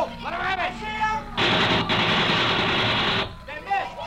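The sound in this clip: Gunfire aimed at a man on a roof: a dense, rapid burst of shots lasting roughly two seconds, set between stretches of men talking before and after.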